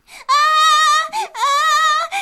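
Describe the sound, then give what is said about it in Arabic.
A boy cries out in pain after falling into a pit: two long, loud, high-pitched wails with wavering pitch, separated and followed by short sobbing catches of breath. “داس عقيل بقدميه فوق الحفرة فسقط فيها، فراح يصيح ويتألم”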